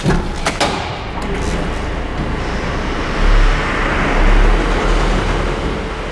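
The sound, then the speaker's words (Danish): A prison transport van rolls out of a dark, concrete-walled sluice through an opening gate into the Greenlandic summer. A steady broad rumble and hiss carries a few thuds at the start and low engine swells midway. “Porten åbner, så lyset strømmer ind, og den grønlandske sommer nærmest blænder hele rummet, mens vognen triller ud i virkeligheden.”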